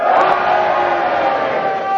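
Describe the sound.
A game-show studio audience cheers together in a loud, sustained roar of mixed shouting voices that holds steady for the whole two seconds.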